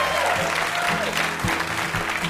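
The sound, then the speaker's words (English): Studio audience applause for a guest at a quiz show: a full, sustained wash of clapping from many hands, staying loud and steady throughout. “Huge round of applause for our VIP, Andrew W.K.”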